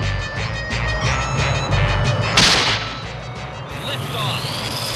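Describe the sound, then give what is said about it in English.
A runaway, out-of-control rocket ignites and lifts off with a loud, continuous rumbling roar, a sharp blast of noise midway, then a thin, high whistling tone riding over the fading rumble. “Liftoff! Runaway rocket that's out of control!”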